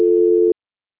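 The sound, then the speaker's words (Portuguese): A steady telephone line tone sounds during a call transfer. It holds one loud, even pitch for about half a second, then cuts off abruptly into silence. “só um momento, estou transferindo a ligação da senhora. Transferência.”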